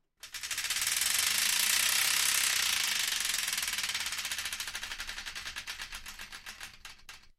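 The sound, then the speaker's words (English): Rapid ratcheting clicks of a spun prize wheel, a fast dense ticking at first that gradually slows, with the clicks spacing out clearly toward the end before stopping; no voices. “So I think we should spin that wheel, don't you?”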